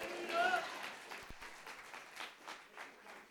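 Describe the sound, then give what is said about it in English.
Clapping from a church audience praising God during an Advent service: a steady patter of many hands with raised voices mixed in, loudest near the start and then holding at a moderate level. “I dare you to clap for real and give God praise.”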